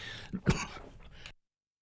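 Throat clearing in two rough bursts, a short one then a louder one, followed by a fading rasp and then silence.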